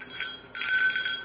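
A bear bell jingles as it is rung, a bright high-pitched metallic ringing that carries on steadily through the short moment. It swells louder about halfway through and then holds with no voices.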